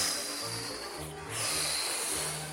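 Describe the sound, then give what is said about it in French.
A wolf blows hard at a wooden house, making a steady, breathy rushing hiss like a gust of wind. It lasts the whole clip and stays loud throughout. “Le loup souffle.”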